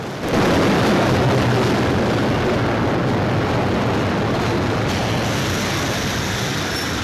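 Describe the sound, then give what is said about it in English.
A subway train rattles into a station, its loud, continuous rumble and clatter rising abruptly and holding steady, with wheel squeal running through the noise. “A subway train rattles into a station.”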